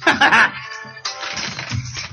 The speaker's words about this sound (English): Well, we're on air now, and I'm just getting a phone call as well, and it's too far away for me to reach.